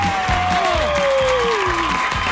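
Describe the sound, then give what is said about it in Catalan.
Audience applause for a performer, with schoolchildren in the crowd: continuous, loud clapping mixed with crowd voices calling out beneath and over it. “Vinga, bon aplaudiment per en Peyu!”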